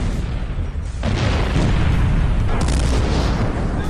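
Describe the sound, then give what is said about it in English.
Military artillery guns firing, with heavy booms that hit sharply around one second and again about two and a half seconds in, then roll into a dense, continuous low rumble with no quiet gaps. “It's all about very loud guns.”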